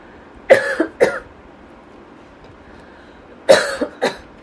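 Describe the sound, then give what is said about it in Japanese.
Someone coughs after choking, in two short bouts of a few harsh coughs each, separated by a quiet gap, moderately loud with no talk over them. “むせてます。”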